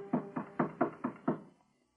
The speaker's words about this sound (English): She turned toward the door when Ngobi knocked.